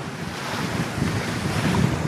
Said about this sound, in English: In the middle of the Atlantic Ocean, the Polar Stern slows and comes to a halt. The giant research vessel is swaying in the waves off the east coast of Africa.